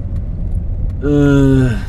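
A car driving around town gives a low, steady engine rumble throughout, with a brief higher tonal sound rising over it in the second half.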